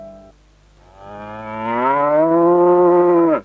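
A cow moos once at feeding time on a household farm, a long, loud, low harmonic call that swells up and then holds steady before cutting off abruptly. A short, fainter sound comes just before it.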